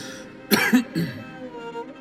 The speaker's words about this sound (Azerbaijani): Bir də pis öskürürsən. Az çək o zəhrimarı.